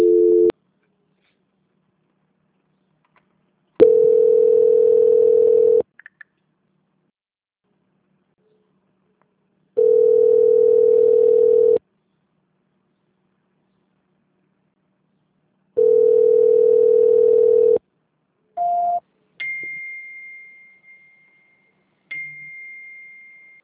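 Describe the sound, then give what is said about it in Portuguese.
Telephone line tones sound while a call is being transferred: several long, steady tones separated by silent gaps, followed by a couple of short beeps and a higher-pitched held tone. “Eu vou transferir de novo, tá? Aí você não desliga, que aí eles vão pegar a ligação lá. Tá ok, então. Tá bom? Tá bom. Transferência.”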